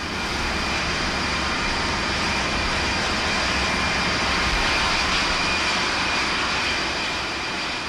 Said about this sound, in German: Endlich an Deck erhalten wir den zweiten, weitaus stärkeren akustischen Eindruck. Etwa 80 Düsenmaschinen lassen zur gleichen Zeit ihre Aggregate einlaufen.